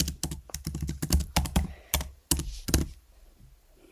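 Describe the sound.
Typing a note on a computer keyboard: many quick, clicky keystrokes in an uneven rhythm that stop near the end, leaving near silence, with no voices.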